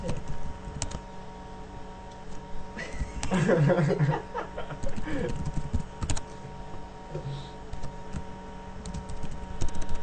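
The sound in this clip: Typing on a computer keyboard while writing a document: a steady run of light, quick clicks runs through the whole clip. A voice and a short chuckle break in briefly near the middle.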